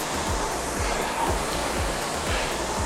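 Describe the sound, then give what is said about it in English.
A ski erg exercise machine in use, a continuous rushing, airy whoosh with regular low thumping pulses roughly twice a second. “that's a mean machine to go on. It's a ski erg”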